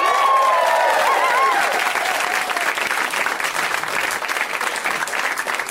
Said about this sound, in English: Let's hear it for them.